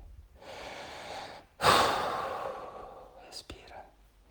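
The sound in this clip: Deep breaths during a breathing exercise: two long, airy breaths, the first steady and the second starting abruptly louder, then slowly fading.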